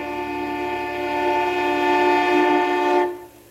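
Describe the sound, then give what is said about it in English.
A train horn sounds a steady, sustained chord of several layered tones for about three seconds, then cuts off abruptly, leaving only a faint low hum. “I think it's a train horn.”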